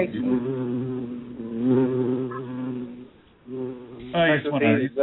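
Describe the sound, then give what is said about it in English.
A small bee buzzing in a steady, low, reedy drone that holds for most of the stretch and briefly fades, while a voice speaks toward the end. “Aww, little bee.”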